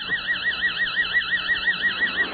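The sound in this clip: An amplified, modulated brainwave signal in the theta rhythm produces a steady, high-pitched electronic tone. It wobbles in rapid, even pulses throughout and is heard alone.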